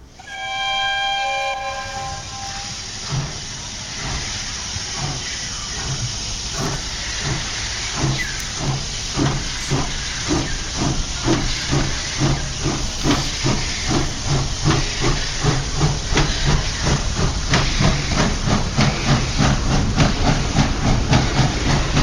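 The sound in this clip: A steam train departs: a brief whistle opens, then rhythmic chuffing and loud hissing steam build steadily in strength as the engine gets under way.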